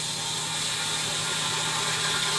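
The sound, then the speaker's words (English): Steady mechanical hum and whir of a sump pump running in a basement, an even motor drone with a low tonal buzz and no change in level. “And that's our guest, the Sump Pump. Sump Pump, our guest today. There's only so many spaces in my basement we can do things.”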